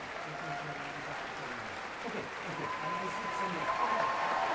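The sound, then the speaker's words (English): Concert audience applause for the National Youth Orchestra of the United States of America during curtain calls, a soft, steady clapping that swells slightly toward the end. “for more applause for the National Youth Orchestra of the United States of America. Another bow for this group of young people.”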